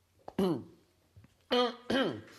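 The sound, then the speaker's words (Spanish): Coughing from a person mid-conversation: three loud, rough coughs, each voiced and falling in pitch, with softer throat sounds between them. “Toso porque la señora la tengo muy cerca.”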